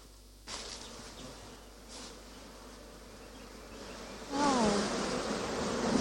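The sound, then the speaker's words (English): Honeybees buzz in an opened top-bar hive as the beekeeper lifts out top bars: a dense, steady drone that swells louder partway through and stays strong to the end. “to have access to everything that you want to access in the hive. Okay, so I'm going to remove some of the top bars for you to see what is in there.”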